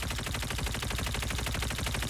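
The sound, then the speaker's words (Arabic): Automatic weapon fire in a video game during shooting practice. A rapid, even stream of loud shots rattles on without pause for about two seconds. “الشيء اللي لازم تسويه نعمل هيك، نضرب، توقف ضرب وترد تضرب مرة تانية.”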